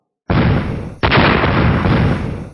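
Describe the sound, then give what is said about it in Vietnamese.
A series of loud explosions from a magical battle. Two sudden, powerful blasts land about a second apart, and each rolls on into a sustained, roaring rumble. “Dày đặc tiếng nổ mạnh liên tiếp phát ra”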